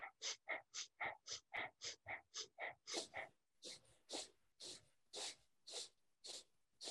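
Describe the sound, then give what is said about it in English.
Rhythmic breathing through the nose with equal inhales and exhales. Many quick, even puffs come first, then a run of slightly slower, longer breaths, heard alone with no talk. “it's an equal inhale, exhale, and rhythmic through the nose like this.”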